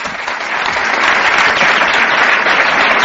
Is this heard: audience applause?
yes